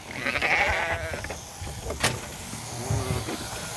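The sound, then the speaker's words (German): Norwegian fjord sheep bleating while being held for shearing: a couple of short, wavering bleats rise above a steady mechanical buzz and shuffling noise, with no talking. “Einmal im Jahr müssen die norwegischen Fjordschafe geschoren werden.”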